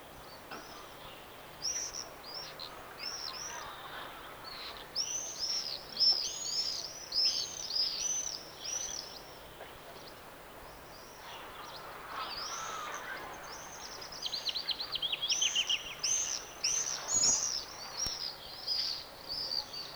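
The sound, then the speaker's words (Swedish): Common swift calls: many shrill, high chirping screams arrive in bursts that overlap and rise and fall in intensity, with a quieter stretch in the middle, over a soft, steady background hiss. “nu följer tornseglare.”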